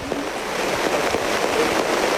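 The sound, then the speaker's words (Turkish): Heavy rain pours in Rize ahead of a football match, a dense, unbroken hiss of water with faint scattered patters running steadily throughout. “Evet, Rize'de yağmur şiddetini hiç azaltmadan devam ediyor.”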